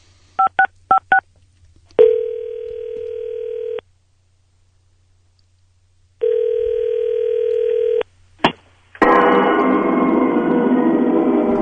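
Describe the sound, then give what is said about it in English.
Telephone keypad dialing tones: four quick beeps in a row, followed by two long steady ringing tones, a click, and a rush of line noise. “Let's dial this up.”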